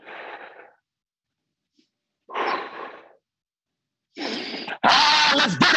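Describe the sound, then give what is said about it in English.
Deep breathing during a morning confidence routine: a few airy inhales and exhales separated by silence, the last breath louder and longer than the others. “Before we do anything else, I just want to give myself that inhale of confidence.”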